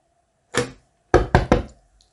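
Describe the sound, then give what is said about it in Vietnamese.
Knocking on a door: a single sharp knock, a short pause, then three quick firm knocks in a row, loud and clear against silence. “gõ cửa cắt ngang cuộc thảo luận kịch liệt của hai người”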